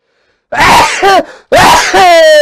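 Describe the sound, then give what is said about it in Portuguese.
A man sneezes loudly in a sharp, explosive burst with a quick double catch, then the sneeze trails off into a drawn-out voiced breath. “Eita, diacho! Espirro de macho, é isso aí.”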